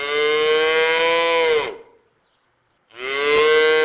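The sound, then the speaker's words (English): Calves mooing inside a white barn surrounded by corn and soybean fields as they await their afternoon feeding. Two loud, drawn-out lowing calls are split by a brief silence, and the second is cut short. “Inside a white barn, surrounded by corn and soybean fields, four calves are awaiting their afternoon feeding.”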